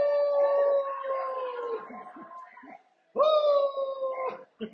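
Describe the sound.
Dogs howl in two long, sustained, tonal wails separated by a short pause. Each howl is loud and holds a fairly steady pitch.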